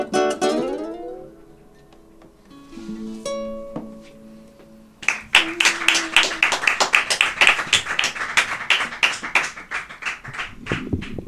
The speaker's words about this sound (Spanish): acá los están ovacionando de aplausos a los chicos en la radio